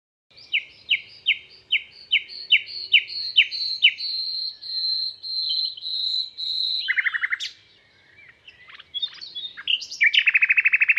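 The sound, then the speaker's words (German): Clear birdsong alone: a run of quick, repeated descending whistled notes leads into a long, high, held tone, then varied chirps and a rapid buzzing trill at the close. “Die Vögel singen wie zuvor. Ach, gedankenlose Vögel.”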